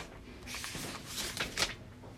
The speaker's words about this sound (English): It's great that on the tape they get all the page turn.